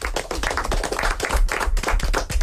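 Applause from a group of children, clapping for a correct answer in a guess-by-touch classroom game. The clapping is dense and steady, with rapid overlapping hand claps at an even loudness throughout and no voices.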